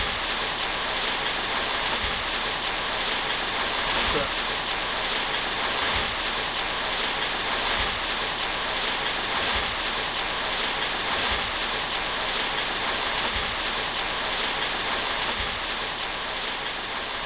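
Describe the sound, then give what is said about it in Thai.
Rain falls on a corrugated zinc roof as a steady, dense hiss of drops that holds at an even level from start to finish, with soft low thuds recurring throughout. “นั้นแม่นเสียงเม็ดน้ําฝน ลนตกใส่ลังคาสังกะสี”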